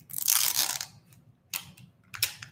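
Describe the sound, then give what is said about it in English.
The wrapping of a communion supper kit crinkles and tears open: a longer, bright ripping crackle at first, then two short crisp crinkles after pauses, fairly faint. “So I've already had the supper once, but I'm going to have it twice today because I'm with y'all. So hopefully I can get this thing open. This kit is not my favorite,”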